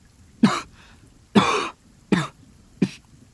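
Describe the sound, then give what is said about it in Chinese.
A man coughs four times, each a short harsh burst separated by brief pauses; the second cough is longer and rougher than the others. No talk. “林叔又是几声咳嗽”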